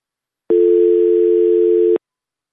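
A telephone dial tone after a radio caller's phone line drops: a single steady, loud tone that starts abruptly, holds for about one and a half seconds and cuts off cleanly, with silence around it.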